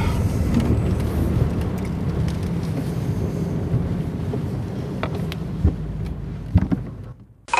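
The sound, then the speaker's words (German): A car driving onto a supermarket parking lot gives a steady low rumble of engine and road noise with some wind buffeting, a few brief knocks near the end, then a sudden drop before it cuts off. “ich fahre hier gerade auf den Supermarktparkplatz”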